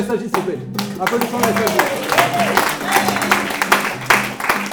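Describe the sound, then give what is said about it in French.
Audience clapping and applause for a day-support service introduced at a gathering, irregular and uneven with distinct individual claps, while voices can be heard over it. “Applaudissons le SAJ s'il vous plaît,”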